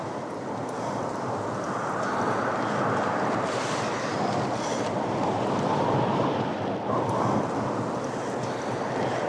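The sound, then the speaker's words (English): Wind roars across a stormy coast, a loud, unbroken rushing blast with a surf-like wash running beneath it. “The wind is so loud, it sounds almost human. They call it the widow's wail.”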